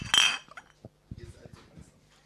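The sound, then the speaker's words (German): Glasses of Spaten Munich Helles beer clink together in a toast, a bright, sharp burst at the start followed by softer knocks and clatter as people talk quietly. “Und trinken aktuell das schöne Spaten. Wollen wir anstoßen offiziell?”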